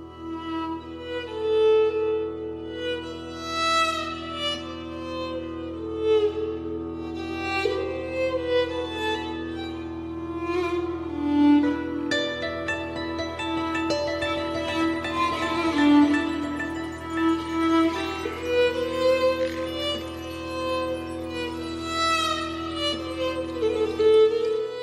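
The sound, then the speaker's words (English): Medieval-style instrumental music from the 2022 video game Pentiment plays at a steady moderate level, layering a sustained drone with plucked and melodic lines, without any voices. “That is the sound of Pentiment.”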